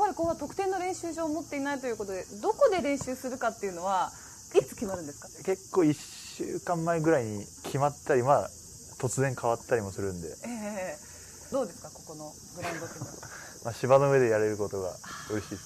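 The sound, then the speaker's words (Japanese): Steady high buzzing of cicadas at a university medical school football ground in Yamanashi on a hot summer day after practice, continuous under two people talking throughout. “いい感じでセミが鳴いていて。”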